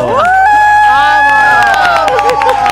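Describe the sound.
A studio audience cheers in one loud, brief burst, with whooping voices sliding and holding on a sustained pitch.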